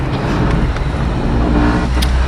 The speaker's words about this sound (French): Alors là, je me trouve dans la voiture de service d'Arnaud Meunier